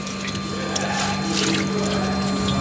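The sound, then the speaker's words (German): Degreasing liquid pumps through a parts washer, switched on with a foot pedal, while greasy parts are cleaned. A steady, continuous rush of flowing liquid runs over a constant low hum, with no pauses. “Du musst aufs Fußpedal steigen. Ah, okay, mit dem Fußpedal aktiviere ich da die Flüssigkeit, dass das genau läuft, oder?”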